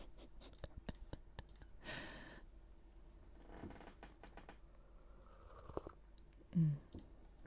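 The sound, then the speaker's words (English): Quick keystrokes on a keyboard make faint, crisp clicks in irregular bursts, with occasional soft rustles and a brief louder knock near the end. “I do type really fast. I type really fast.”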